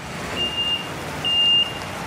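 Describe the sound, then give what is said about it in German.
A 40-tonne truck pulls up at a works site where recycled-concrete blocks are loaded, its engine giving a steady broad rumble while a few thin, high reversing-style beeps cut in, the last one held longer. “Auf dem Werksgelände fährt ein 40-Tonner vor”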